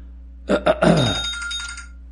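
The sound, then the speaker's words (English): A telephone rings in a short, bright burst of harmonic tone that starts with a few quick pulses and then holds briefly before fading, over a steady low hum. “and I had a phone ringing here”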